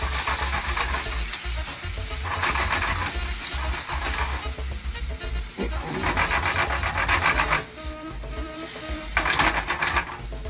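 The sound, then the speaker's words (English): Sizzling and splattering as tomatoes go into a pan of hot frying tomato paste, a loud, steady crackling hiss with scattered sharper spits and a few brief clinks, no voices. “Start to splatter. And then get that. And then we're gonna add in that. Our tomatoes.”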